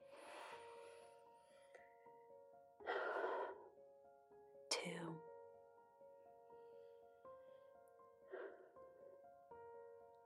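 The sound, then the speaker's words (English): Deep breaths are drawn and let out in a few separate, breathy rushes, each swelling and fading, over a soft sustained musical tone that lingers between them. “If you would like to join me in taking 3 deep breaths, please do so.”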